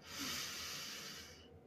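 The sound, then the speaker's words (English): A single deep inhale through the nose during a guided breathing exercise: a faint, steady, airy hiss that holds for most of its length, then thins out near the end. “Take a big inhale through your nose and a full exhale through your mouth. Inhale through the nose.”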